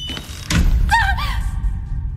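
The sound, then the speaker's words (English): A heavy door slams shut behind people entering a haunted house, one loud dull thud that hits abruptly and leaves a short ring-out. “as we walked in, and the door slammed shut behind us”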